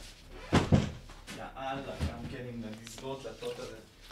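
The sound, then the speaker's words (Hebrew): A door is pushed shut with two quick thuds near the start, followed by ongoing talk. “תן לי רק לסגור את הדלת שלי”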